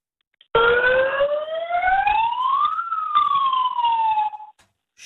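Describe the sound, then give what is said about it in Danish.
An electronic alarm in a small room, set to six of its ten volume levels, gives a single loud wail that sweeps upward, peaks, then glides back down over about four seconds before cutting off. “Det er alarmen, ikke også? Wow. Og den er mega høj.”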